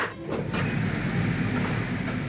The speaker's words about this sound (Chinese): 28号机进入磁力航道，配合信号起飞。